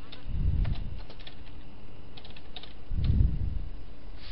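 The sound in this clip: Typing on a computer keyboard, scattered light key clicks with a couple of heavier, dull thumps.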